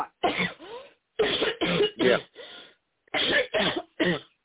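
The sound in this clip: A person coughs and clears their throat against a tickle in the throat. Many short, rough bursts come in three clusters, separated by brief pauses.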